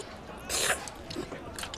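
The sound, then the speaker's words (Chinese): A hungry child eats roast chicken and noodles in a hurry. Faint, wet chewing is heard, with one brief louder burst near the start. “哎呦，慢点吃，别噎着。”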